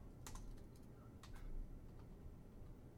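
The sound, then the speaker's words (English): Typing a search into Google on a computer keyboard: faint, quick key clicks come in short bursts over a quiet background. “Let's type it into Google.”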